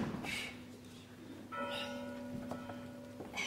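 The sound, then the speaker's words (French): Church bells ring faintly, with a few resonant strikes whose humming tones linger and overlap between blows. “Ces cloches, je me les sens battre aux tempes.”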